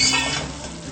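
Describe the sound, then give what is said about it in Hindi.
Spoon stirring vegetables cooking in a pan, a steady sizzling hiss with soft scraping and shuffling, loudest at the start and easing slightly over about a second. “ये चम्मच हिलाते रहेंगे हम इसको।”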